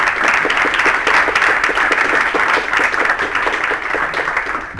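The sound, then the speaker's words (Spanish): Audience applause for a teacher at a school welcome event: dense, steady clapping from many hands that stays loud and even for about five seconds. “un fuerte aplauso para la profesora, por favor.”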